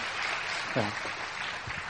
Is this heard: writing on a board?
no